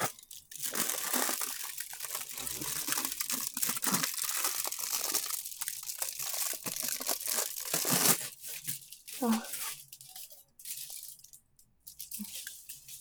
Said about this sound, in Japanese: ああ、破けちゃった。破けちゃった。アルミホイルちょっと置いておきましょう。